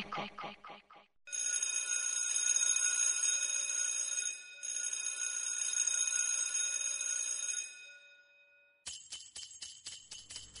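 Bells ring at noon as part of a global event supporting arts education. Quick tinkling strikes open, then a long bright continuous ringing runs in two stretches, and a burst of fast repeated rings closes, with no voices.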